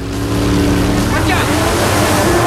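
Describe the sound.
Engine drone from a sleek white powerboat and jet skis running on the sea, a loud, continuous motor hum with steady low harmonic tones and a broad rushing wash above it.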